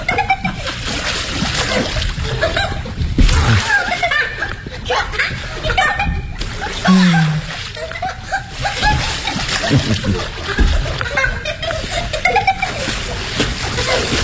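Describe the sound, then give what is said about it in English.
Water splashing as someone swims during a film shoot, a steady churning slosh that runs throughout, with people talking and chuckling over it. “Come on in, darling. Show me how you can swim.”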